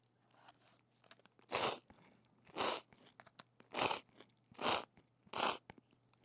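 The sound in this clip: Crunching and chewing while eating chilled Chinese noodles: five crisp, evenly spaced crunchy bites, each brief and sharp, with faint chewing and soft mouth noises in between, fairly quiet overall.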